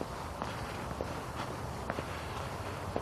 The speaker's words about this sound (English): So, I went out for my walk. I came out. I'm here. I'm walking.